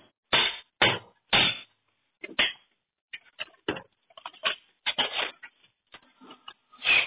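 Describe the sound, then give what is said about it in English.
A hatchet used as a hammer strikes metal in a series of sharp, loud blows: three heavy hits first, then many lighter, irregular knocks and taps. “sometimes all you need is a big ass hammer. So, well, in this case, a hatchet.”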